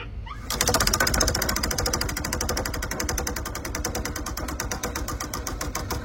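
Sound effect of a spinning prize wheel: a fast, steady run of bright ticking clicks begins abruptly and clatters on evenly to the end at moderate loudness.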